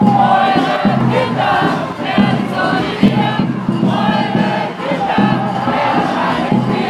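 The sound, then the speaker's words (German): Hundreds of protesters loudly shout against the Pius Brothers in Freiburg, a dense, continuous roar of massed voices that holds a steady level throughout. “Mehrere hundert Menschen boten am Freitag den reaktionären Pius-Brüdern und deren Anhängerinnenschaft in Freiburg laut hörbar Kontra.”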